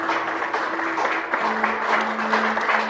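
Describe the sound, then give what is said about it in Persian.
Office staff clap for a colleague in a company hallway, giving continuous, fairly quiet applause throughout with no clear breaks. “تمام کارمنده شرکت به همراه اخوان مظفری توی راهرو ایستادن و برای میثم دست میزنن.”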